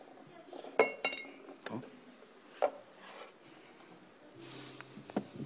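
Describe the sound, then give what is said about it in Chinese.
Glass bottles clink as they are handled and set up for balancing, several sharp, bright knocks spaced irregularly, fairly faint against a quiet background. “说到瓶子呢，现在我给大家演示演示一下吧。好。这个瓶子稍微就是瓶子比较滑，”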